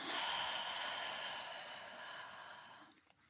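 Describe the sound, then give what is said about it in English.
A deep grounding breath taken during a tapping exercise: one long, soft rush of air that holds steady and then slowly fades away. “Let's go to the side of the hand just for a final setup statement, just taking a really grounding breath in here as you tap and letting it go.”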